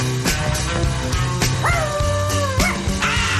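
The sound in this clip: A dog barks a few times in short, sharp bursts, with a drawn-out whining tone between them over a steady low hum.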